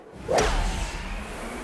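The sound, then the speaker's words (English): A golf tee shot: one sharp swish and strike of the club on the ball, followed by a thin whistle that trails off and falls in pitch over a low, steady background. “All right. Happy tees off.”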